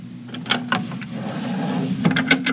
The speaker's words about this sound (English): Quick, let me put your bottle in the top drawer of my dresser.